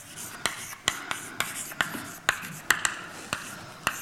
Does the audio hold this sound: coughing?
no